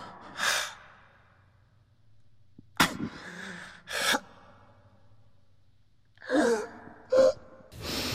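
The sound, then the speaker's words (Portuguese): Deliberate breaths in a warming breathing exercise: several loud, forceful inhales and sighing exhales, some sharp and gasping, separated by quiet pauses, with no talk. “Ela é uma respiração que ajuda a gente a ficar mais introspectivo e ajudar a aquecer o corpo.”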